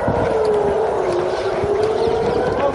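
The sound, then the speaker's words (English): An air raid siren wails during a rocket attack: a loud, steady tone that slides slowly lower in pitch and continues throughout. “Air raid sirens blare.”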